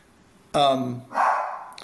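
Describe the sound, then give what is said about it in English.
A puppy barks twice in quick succession, a short tonal yelp followed by a rougher bark, both fairly faint. “Sorry, puppy in the background.”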